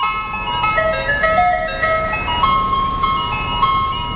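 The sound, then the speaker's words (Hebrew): An ice cream truck's tinny electronic jingle plays a bright, steady melody over a constant low engine rumble. “יש פה אוטו גלידה, ממש פינוק מושלם, גלידה מתנה בטעם פירות לכולם.”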